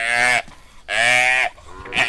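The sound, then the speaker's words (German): Drawn-out bawling from cattle, a lassoed calf and its nervous mother cow on a ranch in the Pantanal. Two loud, harmonic, wavering calls are separated by a short pause, and a third call begins at the very end. “Jetzt hat Wesling das erste Kalb mit dem Lasso gefangen und zieht es hinter seinem Pferd zu uns rüber. Tom kniet auf dem Kalb und versorgt es. Die Mutterkuh steht nervös daneben und schaut ganz genau zu.”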